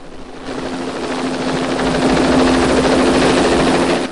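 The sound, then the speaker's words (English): Police helicopter flying overhead above a city: a loud, steady rotor and engine drone that holds a constant hum and throb for the whole clip. “A police helicopter swoops through the bright blue sky over San Francisco.”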